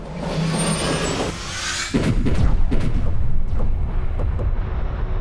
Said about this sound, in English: Targets pulling away from Rift. Abandon jump procedures. Open fire!